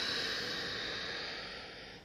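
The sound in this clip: A deep breath in during a guided breathwork and yoga practice lying on a mat, a steady, loud airy hiss heard alone that fades slightly toward its end.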